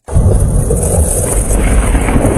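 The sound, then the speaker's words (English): Strong wind roars from a Saskatchewan storm system carrying funnel clouds and large hail. A loud, continuous low rumbling and buffeting fills the whole stretch without a break. “That's the sound of a Saskatchewan storm system that brought funnel clouds, large hail, and wind strong enough to nearly knock over a grain bin.”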